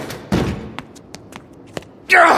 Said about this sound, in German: Er springt gegen die Tür und steht Carmen gegenüber